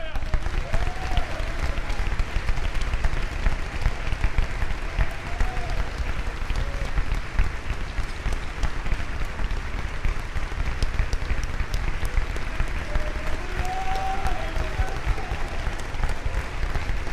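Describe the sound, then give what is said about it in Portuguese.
An audience at a church service applauds with dense, continuous clapping that holds steady at a loud level throughout. Voices can be heard mixed in beneath the applause. “Clap to Jesus. Clap to Jesus. Aplaudam ao Senhor.”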